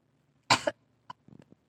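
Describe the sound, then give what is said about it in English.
A man clears his throat in one sharp, rough burst, followed by a few fainter short clicks and breaths. “Then, deliberately, awkwardly, Rex clears his throat, face almost four shades redder than it was a moment ago.”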